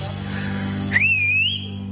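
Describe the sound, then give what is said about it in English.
A person whistles to call someone: a single clear, sustained whistle that climbs steadily in pitch, heard over a constant low hum. “All right, I'm going to whistle, so.”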